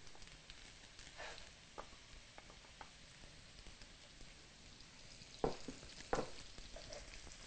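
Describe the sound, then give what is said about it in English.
Vegan butter sizzles as it melts in a hot pan after crispy vegan chicken, with the heat already off. A faint, steady crackle continues throughout, broken by two sharper pops near the end. “While the pan is still hot, we'll add the rest of our vegan butter.”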